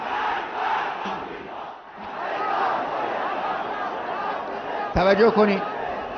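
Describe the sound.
A large crowd of men chants slogans in loud, sustained unison. The roar of voices surges into a sharper, more tonal burst near the end.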